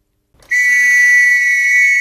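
A shrill blast from a First World War era whistle: a single steady, piercing high tone that starts abruptly and holds loud and unbroken for about a second and a half, alone.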